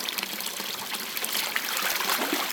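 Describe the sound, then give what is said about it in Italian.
Water splashing and trickling as freshly shorn wool from the Peio Valley is washed before dyeing. It makes a steady, broad, hissing wash of sound with small splashes and no pause throughout. “Qui sto lavando la lana per prepararla per la tintura con il colore.”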